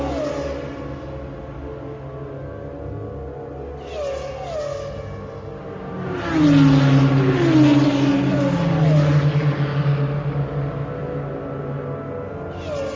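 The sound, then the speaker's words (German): A race car engine accelerating hard on a track, its whine climbing in repeated rising sweeps as it shifts up through the gears, growing louder partway through and staying strong to the end. “Noch einmal auf Gas. Die wird im Formel 1 wahrscheinlich im vierten Gang.”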